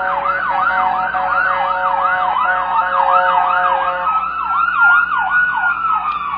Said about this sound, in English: Lord, please help whoever the emergency vehicles are going to.